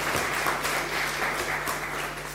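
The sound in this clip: Congregation applause during a church service at Easter time in Miltenberg, Germany: dense, steady clapping from many people, holding at an even level throughout with a low hum beneath.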